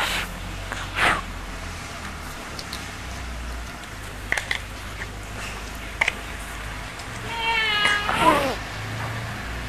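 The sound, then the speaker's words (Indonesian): A cat meows once, clearly, near the end over a steady background hiss. A few faint, short sounds come earlier. “Kucing, jangan ambil ikanku ya.”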